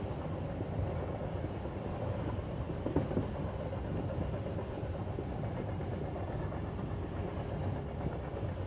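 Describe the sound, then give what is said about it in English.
Train travelling along railway tracks: a continuous, fairly faint low rumble with a light, steady rhythmic clatter beneath it and no talk. “Each muscle begins to loosen a little more as your train travels across the almost silent tracks.”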